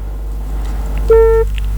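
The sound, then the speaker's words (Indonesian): A telephone line drops during a radio call-in: a steady low hum, then one clear electronic beep held for about a third of a second, and the start of a second beep. “Terputus ya, boleh dicoba kembali”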